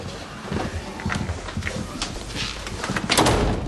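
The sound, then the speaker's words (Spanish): A doorknob rattles as someone tries the door of a house from outside: a steady run of clattering knocks and scrapes, growing a little louder toward the end. “Está ante mi puerta y está tocando mi picaporte.”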